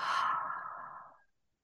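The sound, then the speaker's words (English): A deep exhale out through the mouth during a guided belly-breathing exercise: one long, breathy rush of air that holds steady, then gradually softens and fades out after about a second, with no talking. “breathe deeply into your belly and feel it expand under your hand. Hold at the top and breathe out.”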